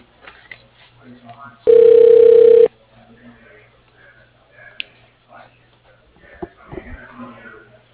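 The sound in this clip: A steady telephone tone sounds for about a second while an office call is transferred to voicemail, heard over a narrow phone line with voices talking before and after.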